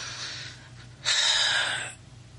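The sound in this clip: A single deep, audible breath: a rushing, airy draw of air lasting nearly a second after a softer breathy lead-in, heard alone without talk.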